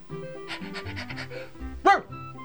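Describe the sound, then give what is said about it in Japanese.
A single loud, short dog bark sounds in front of a family grave. The burst is harmonic and stands out above a steady tonal background. “武蔵が誇らしげに一つ大きく吠えた場所は、野口家の墓と掘られた石の前だった。”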